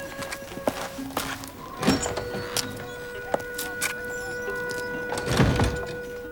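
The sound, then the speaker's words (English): A shop door opening, heard as a few scattered thunks and clicks of moderate loudness over a steady background. “She opens the door to the shop.”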